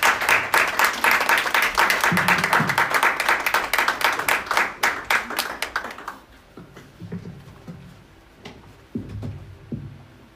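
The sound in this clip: An audience applauds to welcome a speaker with loud, dense, fast clapping that thins after about six seconds into scattered single claps and fades out.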